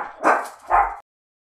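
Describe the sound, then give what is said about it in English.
A dog barks twice in quick succession, two short, loud, rough barks alone with no talking. “cut off by the dog”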